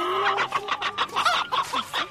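Hens clucking, one of a flock of 132, in a busy run of many short, overlapping clucks and squawks at a steady, bouncy rhythm with no voices.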